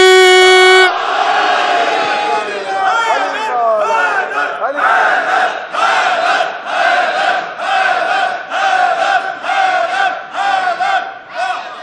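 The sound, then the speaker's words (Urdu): A crowd at a religious gathering shouts the slogan Nara-e-Haidari together. A sustained tone opens, then many loud bursts of massed voices follow in a repeated, rhythmic pattern. “مل کے بولا نعرہ حیدری.”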